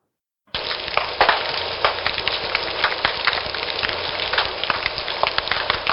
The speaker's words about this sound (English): there are a wide range of animals, from invertebrates like snapping shrimp, which you'll hear here,